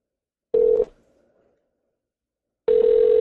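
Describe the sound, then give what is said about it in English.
Ringing tone of an outgoing telephone call: a short steady tone, then a pause, then a second steady tone at the same pitch that continues to the end. “I know, I have somebody we can call. Answer, motherfucker.”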